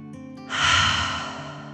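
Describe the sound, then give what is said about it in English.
A storyteller's voice imitates a dragon's deep breath in and out: one long, loud breathy rush that swells after a short quiet start and slowly fades, with a steady low tone under it. “The dragon took another deep dragon breath in and out.”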